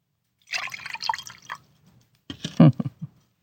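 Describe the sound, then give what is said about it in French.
A drink is poured, with liquid gurgling and splashing in two short, faint bursts separated by a brief pause. “Qu'on me verse encore de cette boisson qui soutient mon feu à moi.”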